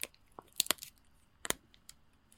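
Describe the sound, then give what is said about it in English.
A granola bar with nuts and chocolate is broken open with faint, crisp crackling snaps. A few quiet, sharp crunches come in small bursts, with no talk. “But can I see the granola bar inside? Because I only saw the outside. Oh, but can you like break it open?”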